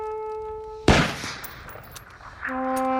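A volley of guns fired together on command: one sharp, loud blast that fades into a rumbling, crackling decay, with a steady tone before and after.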